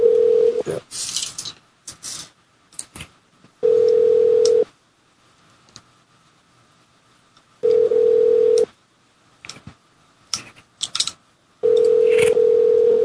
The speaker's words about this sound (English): this one should let us dial from room to room when they don't answer